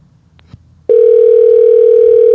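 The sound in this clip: A phone call tone over a Bluetooth connection starts abruptly after a faint click, then holds as one loud, steady, single-pitch note to the end.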